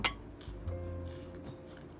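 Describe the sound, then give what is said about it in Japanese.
Cutlery clinks against dishes at a home dinner. A sharp clink opens, followed by a few fainter taps and knocks over a low, steady hum. “私今晩ご飯食べてるんですけど食べてて今日の献立は”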